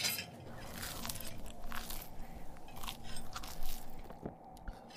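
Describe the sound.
A person biting and chewing food, heard as a steady run of many irregular crisp crunches and wet mouth crackles at moderate loudness, with no talk.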